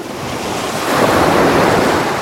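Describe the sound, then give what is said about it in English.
A huge wave crashes over a small rowing boat at sea with a loud, broad rush of churning water that swells toward the middle and stays heavy, mixed with wind noise and no voices. “At that moment, a huge wave crashed over the little boat and filled it with water.”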